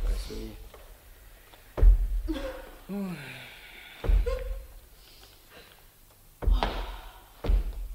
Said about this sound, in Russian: Товарищ полковник! Стучит кто-то!